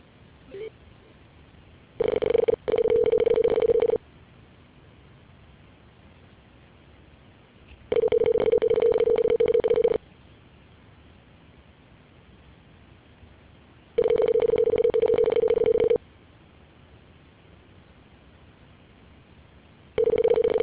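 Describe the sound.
Ringback tone on a phone line as a call is transferred to voicemail: about two-second bursts of a steady tone separated by longer silences, three full bursts and the start of a fourth, with thin telephone-band quality.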